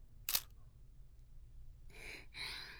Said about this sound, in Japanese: もう一枚撮りましょう。ほっぺたぴったりくっつけて、はい、チーズ。